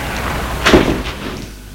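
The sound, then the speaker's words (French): A door swings shut at the entrance of an old apartment building: a single soft, muffled thud over a low, steady background hiss. “Il entre, ferme la porte.”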